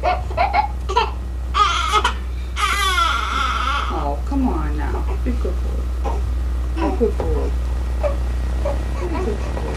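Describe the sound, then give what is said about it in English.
A baby cries with a mother nearby, giving high, wavering sobs for the first few seconds before the crying gives way to quieter adult talk over a steady low hum. “And it finally ends with a crying baby and his mother, then this.”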